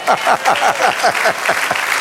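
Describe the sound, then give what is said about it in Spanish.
Congregation applauding during a church service: dense, steady clapping over the full two seconds, with a few voices mixed in. “De un aplauso al Señor.”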